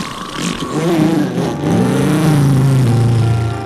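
A car engine roars as it revs to drive off, a loud, sustained mid-pitched drone with a brief dip in the middle before it holds strong again.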